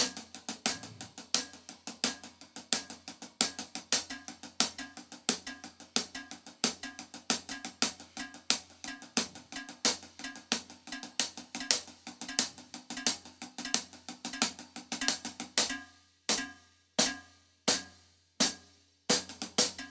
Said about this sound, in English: So it sounds something like this on the hi-hat.